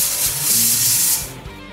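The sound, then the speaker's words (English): A pressure cooker hisses while cooking chickpeas for chole with a tea bag, giving a loud, steady, high rushing steam sound over a low rumble that eases off near the end. “So let's pressure cook this chole. So pressure cook this for 20 minutes till the chana is nicely cooked through.”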